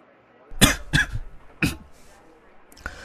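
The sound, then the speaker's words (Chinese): Hoarse coughing during an audiobook reading: three strong, rough coughs in quick succession, then a fainter one after a short pause. “嗓音有点哑，咳嗽了几声，继续说”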